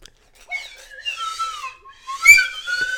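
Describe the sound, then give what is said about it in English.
A slide whistle plays wavering, gliding whistled tones in several phrases, swooping up and down in pitch and growing loudest near the end. “got people out there studying acting and mime, and then you got me with the slide whistle.”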